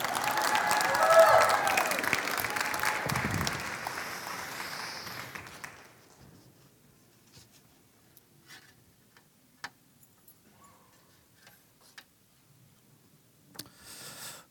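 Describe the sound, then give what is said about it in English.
An audience applauds as a guest speaker is welcomed up: dense, loud clapping for about six seconds that quickly dies away, leaving near silence broken by a few faint isolated clicks. “So, why don't you guys welcome up Bill Wilkinson? Give him a hand, everybody.”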